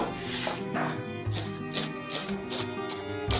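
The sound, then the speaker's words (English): A knife thinly slices six garlic cloves, giving a run of many crisp, quiet cuts at an uneven pace over a steady background. “And then I'm gonna top these tomatoes with the 6 garlic cloves that I'm gonna thinly slice.”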